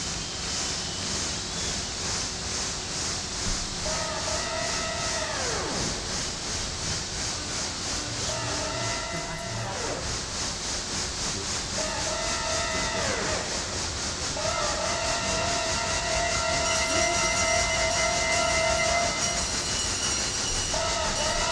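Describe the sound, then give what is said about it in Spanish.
A train getting under way rumbles and clatters steadily on the rails while its horn sounds four times, the last blast longest and sustained; no one speaks. “el tren se pone en marcha”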